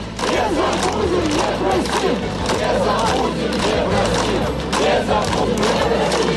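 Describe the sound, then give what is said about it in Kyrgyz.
A crowd of protesters at an anti-Lukashenko demonstration in Minsk chants and shouts loudly and continuously, a dense wall of voices with rhythmic swells. “Минскте президент Александр Лукашенконун кызматтан кетишин талап кылган демонстрациялар бүгүн да уланды.”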